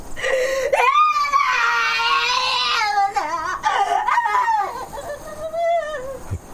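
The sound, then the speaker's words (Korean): A woman cries while lying face down on a wooden floor, letting out loud, drawn-out wails with wavering pitch, broken by short sobbing gasps and whimpers. “우편 배달부는 마루에 엎드려 울고 있는 목사댁을 본다.”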